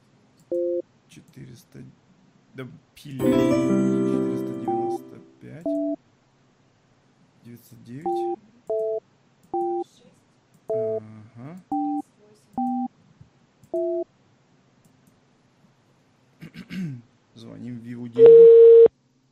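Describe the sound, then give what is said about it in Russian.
A phone number is dialled as a string of short touch-tone beeps in an uneven rhythm, with a brief burst of speech before them. A steady call tone starts at the end. “Звоним в Виву Деньги.”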